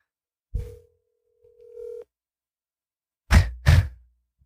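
Telephone tones as a call is dialed and rings: a steady mid-pitched tone held for about a second and a half, then two heavy thumps close together.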